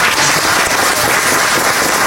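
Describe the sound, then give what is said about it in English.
An audience applauds in a dense, steady wash of clapping that holds at an even loudness for the whole clip, with no voices standing out. “I love the applause, by the way.”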